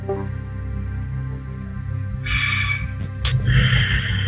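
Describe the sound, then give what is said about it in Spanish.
A deep breath during a guided breathing moment before a tarot card reading, heard as two soft airy inhalations over a steady, sustained musical tone. “Respira profundo.”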